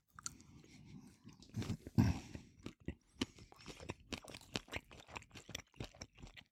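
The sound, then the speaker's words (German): Chewing Berliner Knacker sausage topped with Polish mustard: many faint, crisp crunching bites and wet chews in an irregular rhythm, quiet and close, with no talk. “Ich probiere jetzt mal auf der Berliner Knacker mal den Rolewski.”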